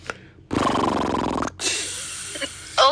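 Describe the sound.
A voice imitates an old man's snoring while sleeping: a few harsh, rasping snorts, the first long and loud, then a shorter one, ending on a sharp wheezy snort.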